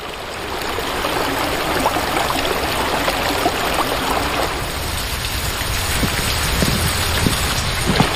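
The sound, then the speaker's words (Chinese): Water rushes through an underground channel beneath bluestone slabs after a sluice gate opens, part of a village drainage system. A steady, dense, hissing roar holds at an even loudness throughout, with no voices. “随着闸门开启，水流沿着青石板下的暗渠奔涌。”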